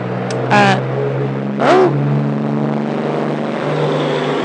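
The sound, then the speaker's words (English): A loud truck passing by rumbles as a steady low engine drone, with two brief louder surges near the start. “it's a loud truck passing by”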